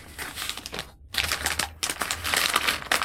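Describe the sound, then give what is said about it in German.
A paper envelope holding banknotes is opened, giving loud crinkling, tearing rustles that run almost continuously, with one brief silent gap near the middle. “Öffnen Sie den Umschlag.”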